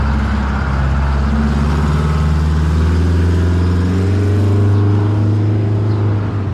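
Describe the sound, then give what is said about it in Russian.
A blue bus pulls up to a stop with a loud, steady low engine drone and layered humming tones that hold on without a break; no voices are heard. “Только Катя подошла к остановке, в конце улицы показался синий автобус.”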